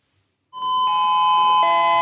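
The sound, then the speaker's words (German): School bell at a Gymnasium in Oberpullendorf, Burgenland, sounding before the first lesson as a loud, sustained electronic chime that steps through a few tones, alone with no voices. “Noch bevor es zur ersten Unterrichtsstunde im Gymnasium in Oberpullendorf läutet”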